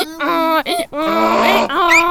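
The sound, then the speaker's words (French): A person imitates a donkey's bray with a loud, strained, nasal run of vocal honks in a few pitch segments separated by brief catches of breath, rising to a higher squeal at the end. “Moi, je sais faire l'âne, par contre.”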